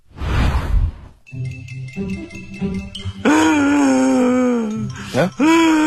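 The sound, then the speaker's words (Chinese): A voice imitates loud, wailing sobs of a friend breaking down in tears while drinking with companions in a comic routine. Light tinkling tones come first, then long, loud wavering cries with a brief catch before they resume. “这个时候忽然间有一个朋友呜呜大哭起来。”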